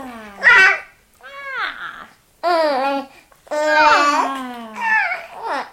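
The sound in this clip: A baby babbles and makes mouth noises in several separate bursts of high, sing-song vocalizing. The pitch glides up and down between short pauses, and a few sounds come close to squeals or giggles.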